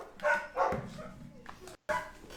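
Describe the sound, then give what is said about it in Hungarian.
Dogs barking in a few short, sharp barks and yips, moderately loud, with a steady background hiss and a brief dropout near the end. “Egy pillanat, csak kidobom a kutyákat.”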